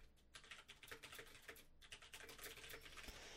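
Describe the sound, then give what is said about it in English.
Typing on a computer keyboard: many quick, uneven keystrokes clatter continuously in a quiet, steady patter with no talking. “I can't type worth a damn.”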